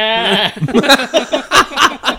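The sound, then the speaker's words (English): A man's voice imitates a sheep bleating, opening with a wavering, nasal bleat, then breaking into a few choppy, chuckling vocal bursts. “Why is there sheep out? He walks out the side of his house, and there's not sheep. It's a man in a wheelchair going.”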